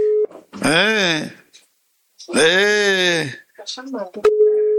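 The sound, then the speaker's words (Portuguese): A new mobile phone rings unanswered, sounding two long warbling melodic bursts separated by a short gap, with a steady beeping tone at the start and end and a few brief clicks between. “Ele tá sem saber atender o aparelho novo, rapaz. É aparelho novo,”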